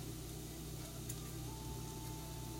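Bacon sizzles in a pan, a dense, steady crackling hiss at constant loudness throughout with no talk over it.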